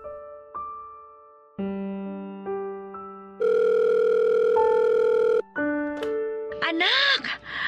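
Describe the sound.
Telephone tones sound as a call goes through: a few steady electronic beeps, then a long loud continuous ringing tone, then more tones before a voice answers and speaks at the end.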